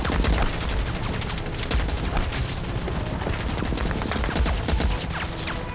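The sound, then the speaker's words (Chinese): Heavy anti-aircraft machine guns fire level in a war-drama battle scene, a dense, loud, continuous roar of rapid shots and overlapping bursts that never pauses across the whole stretch. “南朝鲜军竟然用高射机枪平射。”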